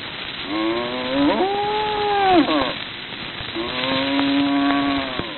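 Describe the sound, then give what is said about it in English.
Two long, drawn-out lowing calls from a farmyard cow, each a rich harmonic moo held for about two seconds, loud and alone with a short pause between them. “This ruffles the temper of the old turkey gobbler, who gives vent to his displeasure. Old Brindle consoles him.”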